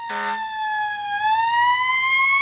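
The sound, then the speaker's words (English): A siren wails as one continuous tone after a short noisy burst at the start. The pitch dips slightly, then climbs slowly, loud and steady throughout. “Well, I guess sirens sometimes can get kind of horny.”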